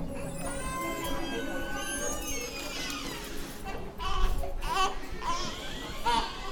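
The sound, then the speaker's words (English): Babies babble and fuss in the prison nursery of Bedford Hills Correctional Facility, a maximum security prison in upstate New York. The soft, high-pitched baby sounds are fairly quiet and continue throughout. “This is the sound of a prison nursery at Bedford Hills Correctional Facility. It's recorded by North Country Public Radio.”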